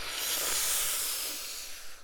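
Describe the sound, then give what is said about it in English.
A deep breath drawn in between sentences: one long, airy, hissing inhale that swells in the first second and then slowly eases off. “I don't know if you can, like, hear me taking such goddamn deep breaths whenever I talk, but here we are.”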